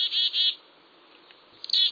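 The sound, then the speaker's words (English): High, thin chattering calls come from a mixed flock of small birds: black-capped chickadees, a ruby-crowned kinglet and a downy woodpecker. The calls arrive in two bright, buzzy bursts separated by a quieter stretch. “A chattering ruby-crowned kinglet hovers at a branch tip, and a petite downy woodpecker whinnies. And they're all close at hand. This noisy flurry of small birds is a mixed-species”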